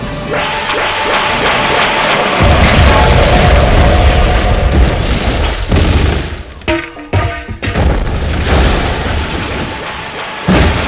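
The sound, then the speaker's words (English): Heavy explosions and sustained weapon fire destroy a watchtower. A deep, continuous roar of blasts builds from a few seconds in, with sharper crackling bursts and brief dips partway through, loud throughout with no voices. “Concentrate all firepower! Destroy! Destroy! We obey!”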